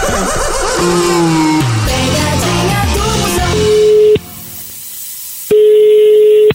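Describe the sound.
A phone call rings out as an outgoing call is placed. After a few seconds of other tonal sound, two long, steady ringback tones play, separated by a silent pause.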